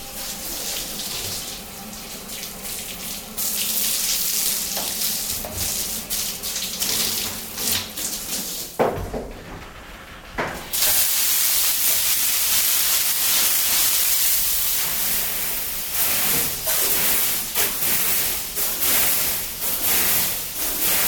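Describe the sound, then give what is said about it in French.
Water runs from a timed push-button shower in a changing cabin, a steady, loud hissing spray that continues without pause for the whole stretch, with no voices. “après avoir appuyé sur le bouton poussoir minuté, on peut se laver et profiter des bienfaits de l'eau.”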